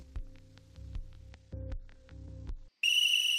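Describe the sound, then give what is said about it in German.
A long, piercing electronic whistle from a telescreen sounds as one loud, steady high tone. Before it come a few low, rhythmic buzzing pulses and a brief silence, and the whistle then holds unbroken to the end. “Vom Teleschirm kam ein ohrenzerreißendes Pfeifen. Ein langer Dauerton.”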